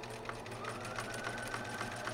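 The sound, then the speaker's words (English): A sewing machine running steadily, its quiet continuous whir carrying faint, rapid ticking from the stitching mechanism, with no break in the motor sound. “Many sewing machines have seen action across America in recent weeks”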